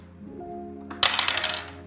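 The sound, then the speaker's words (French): Dice rolled during a tabletop game: after a low steady hum, a sudden clatter of several quick rattles and clicks breaks out and tapers off within about half a second. “Donc, tu vas lancer les dés.”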